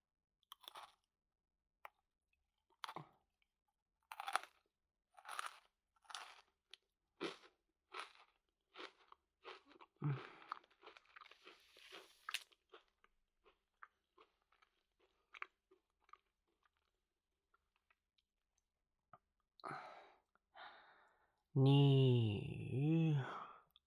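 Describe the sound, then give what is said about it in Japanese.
Someone crunches and chews a chocolate snack in many short, crisp bites with small gaps between them. The bites gradually get quieter and softer, and a brief voiced hum or sigh comes at the very end. “美味しそうなチョコレート菓子。いただきます。”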